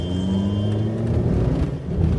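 A car drives fast on the Autobahn, heard as a loud, steady engine and road drone that is cold and very noisy inside. The low rumble holds with a few slight swells and no voices.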